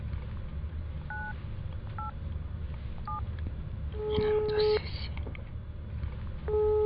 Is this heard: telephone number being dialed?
yes